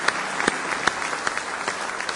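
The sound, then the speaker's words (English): A church audience claps in praise, with loud, sharp hand claps in a steady, even rhythm throughout. “Give him one more hand clap of praise tonight if you love him.”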